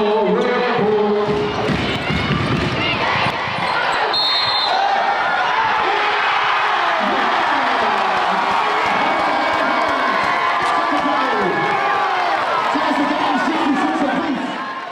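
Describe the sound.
A crowd cheers and shouts loudly throughout a women's basketball game as a clutch basket is made. The roar stays sustained, with voices talking over it.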